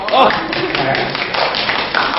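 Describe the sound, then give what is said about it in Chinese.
Audience clapping at a Chinese storytelling show rises in a brief burst and then continues as a loose patter beneath a performer's talking. “你使劲的鼓掌，使劲的笑好”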